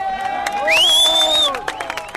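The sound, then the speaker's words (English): Crowd cheering and shouting at a bullfight after the bull is speared, a loud sustained roar of many voices with a shrill whistle-like tone cutting through the middle before the noise breaks into scattered calls. “He's led away by cheering companions.”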